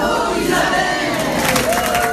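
Cheering and applause come from a choir group gathered for a rehearsal: a continuous, loud crowd roar with shouted whoops riding over it.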